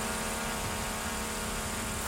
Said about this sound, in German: Und mit dem Erlös diese Drohne für knapp 30.000 Pesos gekauft. Die kam aus den USA.